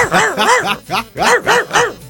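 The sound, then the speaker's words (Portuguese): A dog barks in a quick run of six short, tonal, yelping barks. The barks are fairly loud, with brief gaps between them and no other sound between the barks. “O cachorro tá lá apreciando nós também.”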